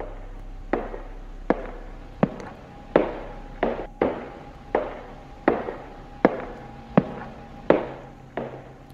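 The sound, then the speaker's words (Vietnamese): Footsteps at night behind a door: a slow, evenly spaced series of sharp, hard steps, each with a short fading tail, over a faint low hum, with no voices. “Cho nên cái âm thanh đấy nó rõ lắm, là tiếng bước chân.”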